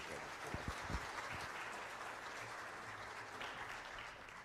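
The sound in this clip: A church audience at a morning service applauds a guest speaker with steady, soft clapping from many hands that stays even in loudness from start to finish.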